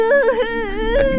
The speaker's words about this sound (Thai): เองจะร้องไห้ทำไมนักหนาเนี่ยฮะ